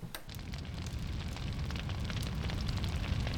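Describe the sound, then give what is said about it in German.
Fire burns outdoors with a steady roaring rush, dense crackles and scattered pops. It grows slightly louder toward the end and is heard alone, with no voices. “Feuer! Es brennt draußen!”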